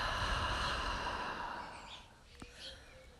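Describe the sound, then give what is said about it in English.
A slow, deep breath drawn in through the nose and let out through the mouth, a long airy exhale that gradually fades, heard over a soft sustained background. “Take a deep breath in through your nose, out through your mouth,”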